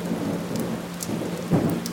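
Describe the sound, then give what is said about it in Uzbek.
Steady rain falls as an even, hissing wash of drops, with a low rumble underneath that swells briefly near the end. “Yomg'ir bir tekis, shtir-shtir yog'ar”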